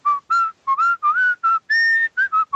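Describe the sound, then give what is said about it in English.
A person whistles a cartoon theme tune, a clear loud run of many pitched notes in quick melodic phrases separated by brief gaps, with one longer held high note near the middle, heard alone. “That was pretty good whistling.”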